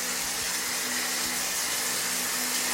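Water rushes from the tap into a bathtub as a steady, even hiss with a low underlying hum, continuous and unbroken throughout, with no voices.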